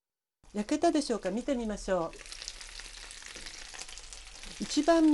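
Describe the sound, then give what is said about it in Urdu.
Chicken pieces frying over low heat in a covered frying pan give a continuous crackling sizzle, with a brief tonal, voice-like sound over the start and again at the end. “Fry pan کو کسی ڈھکن سے ڈھانپ دیجیے تاکہ گوشت اچھی طرح سے گل جائے۔ دھیمی آنچ پر مزید 4 منٹ پکائیے۔”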